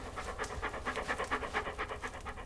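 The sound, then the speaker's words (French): A female dog panting, with many quick, rhythmic breaths in a steady pulsing pattern, faint and alone throughout. “Tu me reconnais, hein? La brave chienne. Superbe bête.”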